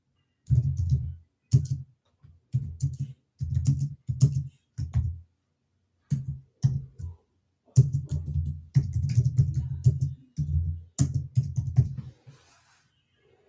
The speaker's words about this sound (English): Excuse me while I type.